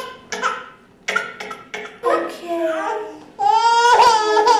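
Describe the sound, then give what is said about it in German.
An infant cries to get its mother back, starting with soft, broken whimpers that build into short sobbing bursts and end in a loud, sustained wail. “Das Baby fängt so ganz leise an und dann macht es wirklich alles, was ihm zu Gebote steht in der Phase, um die Mutter zurückzukriegen.”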